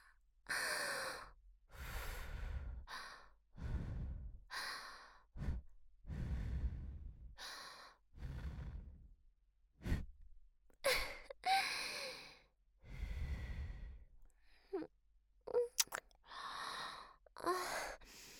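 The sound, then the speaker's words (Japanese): Breath blown gently into the listener's ear in a close ASMR setting: many soft, airy puffs and sighing exhales, one after another with brief pauses, quiet and intimate, without any talk. “もしかしてお耳に息吹きかけられるのくすぐったい？じゃあもっと息かけちゃおっと。”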